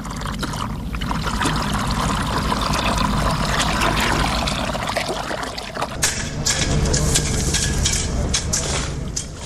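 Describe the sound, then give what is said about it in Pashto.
Water rushes steadily as a woman irrigates her field on wide farmland. The flow is continuous and fairly loud, with no pause from start to end. “دغلته یوه ښځه ده، بیل پلاس کې دی، خپل ځمکو کې اوبه لګوي.”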